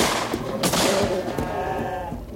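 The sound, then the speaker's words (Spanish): Goats bleat among dry scrub beside a well during a drought, a few wavering, nasal cries over a rough, noisy background. “¡Malditas cabras! ¡Se están comiendo las pocas hojas que quedan!”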